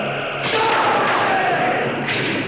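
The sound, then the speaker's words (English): Starship phaser beams fire from the underside of a main saucer-shaped hull and strike a temple. A loud, harsh, sustained hissing blast lasts the whole clip, with faint whining tones running through it and brighter bursts near the start and the end. “Two red phaser beams shoot out from the bottom of the Enterprise's main saucer-shaped hull and strike the temple.”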